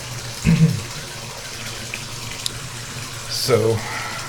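Water splashes and sloshes in a hot bathtub as someone soaks, with two brief splashing bursts separated by a quieter stretch of low, steady background.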